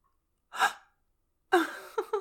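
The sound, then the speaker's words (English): Sharp, breathy vocal gasps from a person: one short gasp, then after a silent pause a longer gasp followed by two quick catches of breath, heard alone. “Already gasping.”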